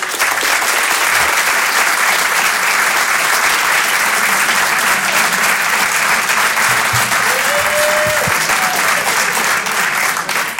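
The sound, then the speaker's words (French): A comedy club audience gives a standing ovation, with dense, steady applause that stays loud and unbroken from start to finish. “Faites une ovation pour Edgar Yves.”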